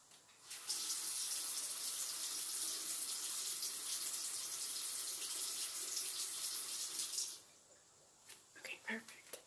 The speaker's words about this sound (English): this rag that I have here. Okay, I'm gonna go ahead and get it wet and go ahead and wipe your face again. So let me go ahead and get it wet.